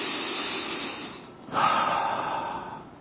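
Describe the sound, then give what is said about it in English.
A deep breath in and out, long and airy, with a steady rush of air that swells suddenly midway and then slowly fades. “Take a deep breath in and let it out. Do this with me.”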